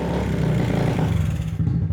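A motorcycle engine with a clogged carburetor idles while warming up after starting, giving a steady, continuous low throbbing rumble that stays even throughout without clear revving.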